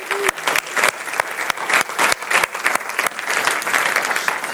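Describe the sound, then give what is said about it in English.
Audience applause for the sound team. Many sharp, distinct claps ring out over a dense bed of steady clapping that stays level throughout. “can we just give them a hand for...”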